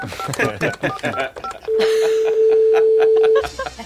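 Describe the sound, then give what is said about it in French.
A telephone number is dialed on a keypad as a quick run of many short tone beeps, then a steady single-pitched ringing tone holds for nearly two seconds before cutting off. “Vous pouvez composer le numéro du paradis, s'il vous plaît? Ça sonne.”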